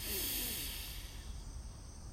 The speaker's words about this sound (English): Let's take a breath in on that. Breathe in.